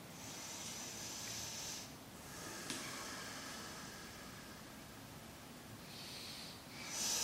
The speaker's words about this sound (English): three more breaths in this shape slow, deep, conscious.